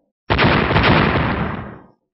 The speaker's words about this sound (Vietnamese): thiên thể đá khổng lồ rốt cuộc cũng ầm ầm bị đánh cho va chạm. Lực công kích cường đại làm chúng rốt cuộc bắt đầu nổ tung phân ra